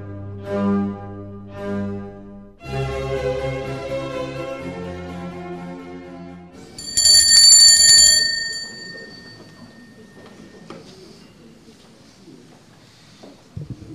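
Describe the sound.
Small handbell rung to mark the start of a Monday conversation session: a bright, loud ringing burst about a second long, following a stretch of music and then fading into near quiet.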